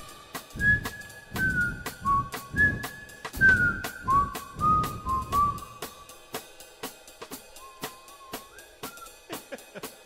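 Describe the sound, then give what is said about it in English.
Whistled notes from a person, clear mid-pitched tones that slide and wave in pitch across several short phrases, heard over a steady, fast clicking beat. “I thought I was gonna get a whistle duet.”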